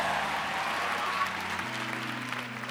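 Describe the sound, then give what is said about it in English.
Applause from a church audience welcoming a woman speaker to the pulpit: a broad wash of clapping, fairly faint, over steady low sustained tones. “Let's give Umfundisi Dudu a big hand as we welcome her.”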